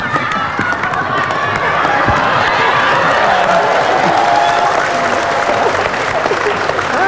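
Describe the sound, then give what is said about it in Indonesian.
Loud, dense applause from a TV talk-show studio audience welcoming guests, sustained and even for the whole seven seconds with no break in the clapping. “tepuk tangan untuk dua Uco”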